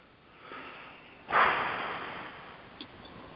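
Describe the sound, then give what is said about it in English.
People take a deep breath together. A soft, breathy intake swells suddenly and then trails off slowly into a long, faint exhale. The sound is quiet and heard alone, with no talk. “So, let's all take a deep breath.”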